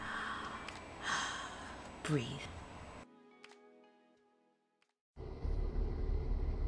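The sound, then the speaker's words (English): A deep breath is drawn and released, soft and airy, followed by a quiet pause before a louder, steady sound comes in at the end. “I pray that you will take this moment to catch your breath. Ready, set,”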